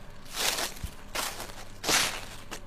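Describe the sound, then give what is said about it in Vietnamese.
Footsteps crunching on rotten leaves, a few slow, dry rustling steps spaced roughly half a second or more apart, fairly soft, with no talking. “Từ đằng xa có tiếng bước chân bước lại gần, sột soạt dẫm trên nền lá mục.”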